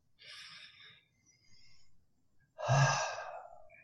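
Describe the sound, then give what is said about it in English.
A person takes a deep breath in. Two softer airy breaths come first, then a louder, longer inhale with a slight gasping, throaty edge, with no talking. “Take a deep breath.”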